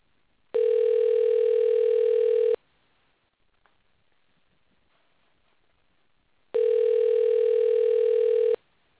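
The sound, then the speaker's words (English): Telephone ringing out on an outgoing call: two steady ringback tones, each about two seconds long, separated by a long stretch of near silence. “So we're giving him a call.”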